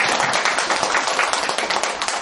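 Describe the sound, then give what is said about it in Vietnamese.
Audience clapping during a Buddhist talk, rapid, dense claps that pile into a loud, steady patter over a couple of seconds. “Vỗ tay A Di Đà Phật. Vỗ tay.”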